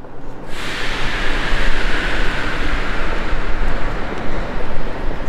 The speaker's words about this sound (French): Et nous voilà, gare de Lyon à Paris.